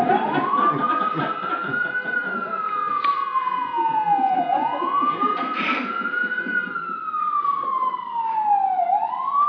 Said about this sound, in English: I'm going to forge along because it seems like I could be here all night with that ambulance.